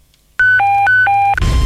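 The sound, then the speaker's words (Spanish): A telephone rings at a radio station as the press department calls. A loud electronic ringtone alternates between a high tone and a lower tone for about two full cycles, then a rush of noise follows. “Algo está ocurriendo. El departamento de prensa de RTL está llamando.”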